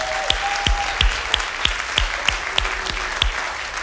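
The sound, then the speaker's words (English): A church audience in North Attleboro applauding to welcome the Taunton campus: steady, dense clapping with a regular pulse of strong accented beats running through it. “Everybody in North Attleboro, let's give them a hand. Welcome them in.”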